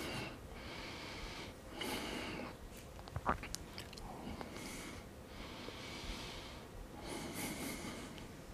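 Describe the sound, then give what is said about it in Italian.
Slow breathing in and out during a leg exercise: several faint, airy breaths in an even rhythm, with a brief snort-like sound near the middle. “inspiro, espiro, inspiro.”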